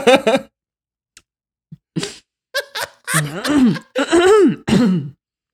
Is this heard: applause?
no

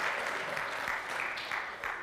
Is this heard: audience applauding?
yes

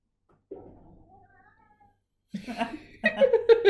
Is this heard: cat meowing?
yes

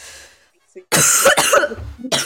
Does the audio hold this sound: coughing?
yes

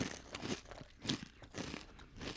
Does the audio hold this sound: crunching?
yes

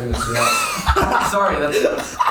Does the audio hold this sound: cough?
yes

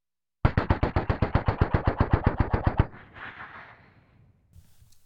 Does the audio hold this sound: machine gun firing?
yes

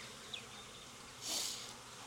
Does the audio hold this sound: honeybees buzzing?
yes

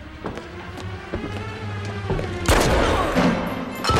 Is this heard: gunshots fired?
yes

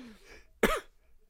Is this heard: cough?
yes

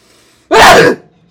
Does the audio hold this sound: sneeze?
yes

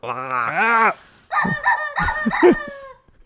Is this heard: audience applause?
no

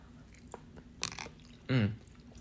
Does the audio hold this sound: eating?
yes

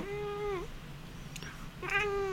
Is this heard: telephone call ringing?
no

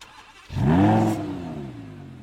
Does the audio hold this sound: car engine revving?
yes

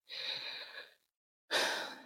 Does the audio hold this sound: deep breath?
yes

